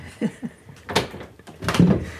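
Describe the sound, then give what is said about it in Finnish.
Knocking on a bedroom door off a kitchen in a home: two soft, low knocks in quick succession, followed by a few louder, broader noises. “Voidaan koputtaa. Heillä on ovi, meillä ei.”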